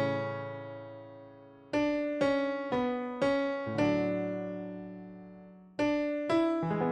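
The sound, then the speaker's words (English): A melody played diatonically, using only the notes of the scale, as a slow series of struck single notes that each ring and fade, with a long pause before the last few notes. “but if we played this melody in not chromatically, the opposite of chromatically, diatonically, yeah, just using the notes of the scale that you're supposed to, yeah, it would sound like this.”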